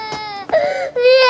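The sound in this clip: An infant girl cries loudly in a few sustained, high wails separated by brief catches of breath, with a strained, sobbing quality and no other sounds.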